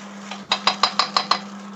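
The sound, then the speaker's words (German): A spoon stirring peanut curry chicken in a pot strikes the pot six times in a quick, even rhythm. The bright metallic clinks sound over a steady low hum. “Rühr mal dein Curry durch.”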